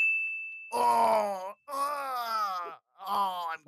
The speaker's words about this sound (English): I'm groaning in pain. I'm groaning in pain because I was in a hot tub.